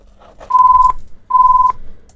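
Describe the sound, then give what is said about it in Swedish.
A telephone rings as two steady electronic tones of the same mid pitch, each under half a second, separated by a short gap. “Och där ringte det.”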